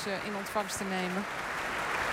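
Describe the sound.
Audience applause for performers thanking the crowd: a steady wash of clapping that continues throughout, with a voice speaking over it during the first half.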